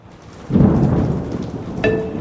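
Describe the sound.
Rain hisses steadily as a deep thunder rumble swells in after a moment and rolls on under the downpour.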